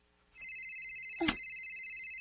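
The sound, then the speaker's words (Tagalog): A cellphone rings from above the ceiling with a steady, high electronic tone that starts abruptly and holds without pause. A brief dull thump occurs partway through. “Hai naman ito nagtingog ng cellphone.”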